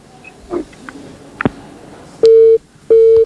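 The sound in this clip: Telephone busy tone after a call disconnects: two short, steady, identical beeps in quick succession, preceded by faint clicks and line noise.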